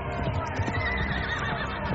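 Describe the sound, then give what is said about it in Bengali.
Horse neighing over hoofbeats as mounted soldiers approach, a dense, continuous mix of whinnying and thudding with a busy, steady level throughout. “এমন সময় ঘোড়ার ফুরধ্বনি ও সৈন্যদের কোলাহল শুনতে পেলেন।”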